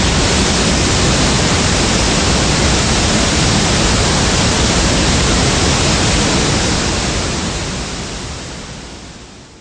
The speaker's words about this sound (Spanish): aún tuvo tiempo de percibir como una avalancha de agua marina lo inundaba todo.